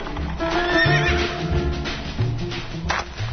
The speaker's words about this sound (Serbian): Čvrsto se stiskala uz dadilju dok je u kočiji u pratnji konjanika danima putovala iz Sarigrada, najvećeg grada na svetu, ka nepoznatoj zemlji.